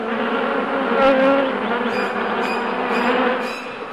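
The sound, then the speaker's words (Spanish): A bee gives a loud, continuous buzz, a droning hum with a few brief sharper flutters toward the end. It sounds alone, with no talk over it. “De pronto, un fuerte zumbido lo despertó. Muy asustado, reconoció a la tía abeja, que estaba frente a él.”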